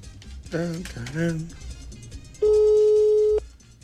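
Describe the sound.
A telephone ringback tone on an outgoing call: one steady, loud, one-second beep at a single mid pitch. It follows a short stretch of people talking.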